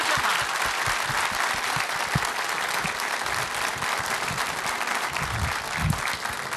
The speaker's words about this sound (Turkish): Bir alkış istirham edeyim efendim.